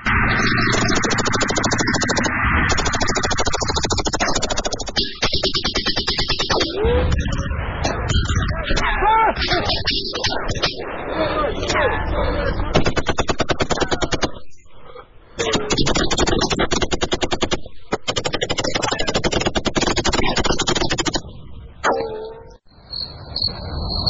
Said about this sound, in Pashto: د دوی لخوا ډزې ودرېدې